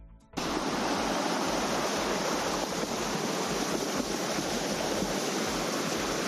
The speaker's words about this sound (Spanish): Y este es el sonido de cómo bajaba el agua por las calles de Lezaun, la fuerza que llevaba ese río literalmente por las calles de Lezaun.